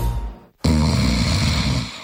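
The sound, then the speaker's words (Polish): Snoring: a rough, low rasping buzz, a short silent pause, then a louder, sustained grating snore that holds steady before easing slightly. “Każdy z nas zna kogoś, kto chrapie”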